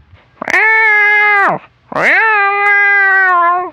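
A hungry cat meows twice, each a loud, long, drawn-out cry holding a steady pitch. The second meow lasts longer than the first, with a short silent pause between them.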